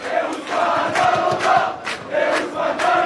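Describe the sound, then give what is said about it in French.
Football supporters on a bar terrace in a small Paris street chant loudly in unison during a penalty shootout. The crowd chant rises and falls in a repeating rhythmic pattern. “Entendez le chant des supporters de cette petite rue Raymond Losserand dans le 14e arrondissement. On est comme au stade.”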